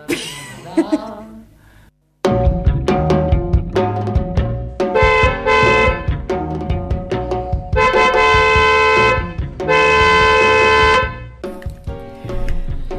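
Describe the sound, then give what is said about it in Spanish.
Car horns blaring in a 9 p.m. protest honk in solidarity with the residents of Jáchal and Iglesias. After a short sound and a brief silence, loud, overlapping horn blasts follow, mixing long sustained honks and shorter toots. “Ahí está, suena el bocinazo desde acá, desde La Colectiva”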